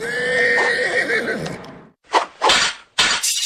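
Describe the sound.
A horse neighs in a long, loud, wavering whinny that breaks off, then a few sharp bursts of noise follow. No words are heard.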